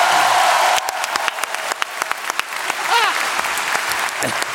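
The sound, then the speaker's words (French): Loud, dense audience applause that starts abruptly and carries on throughout. Cheering and a whooping voice rise over the clapping near the end. “On peut l'applaudir.”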